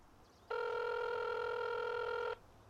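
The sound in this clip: Telephone ringing while the caller waits for someone to pick up. One sustained electronic ring tone of about two seconds, steady and fairly faint, with no voices.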